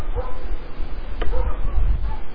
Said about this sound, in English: those dogs barking back there and shut them up